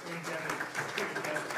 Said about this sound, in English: we'd really like to acknowledge you and your presence and participation. A round of applause to them, please.